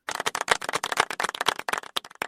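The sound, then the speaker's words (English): A light golf clap after a joke: many quick, crisp claps in an uneven patter, fairly quiet, with no voices. “Yes, we're going to give the golf clap for that little joke.”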